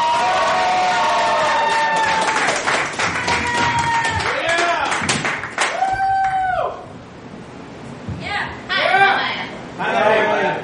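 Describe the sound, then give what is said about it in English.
Cheering, whoops and clapping from an audience at a poetry show greeting a poet, loud and continuous, with a brief dip partway through before the voices rise again. “Make some noise for Aya, ladies and gentlemen.”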